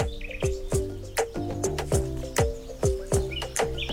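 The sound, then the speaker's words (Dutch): Birds sing in a Dutch polder, with many sharp, loud chirps repeating in a fairly steady rhythm, each call falling quickly in pitch, while other birdsong overlaps faintly in the background. “Ik ben op zoek gegaan naar de nieuwe inwoners van Polder Malta. De vogels, de dieren, de mensen.”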